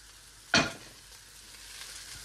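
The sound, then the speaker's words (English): Cooled cooked rice hits a hot pan with one sudden, loud burst of sizzling that quickly fades into a steady, quieter frying hiss while it is stirred. No voices are heard. “And we're going to re-add the rice to the pan. So I'm going to add my rice now.”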